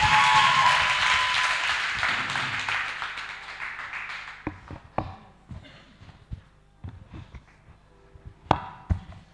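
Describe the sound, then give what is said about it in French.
A church audience applauding in praise: dense clapping fills the first few seconds, then thins into scattered, separate claps that trail on. “On acclame le Seigneur.”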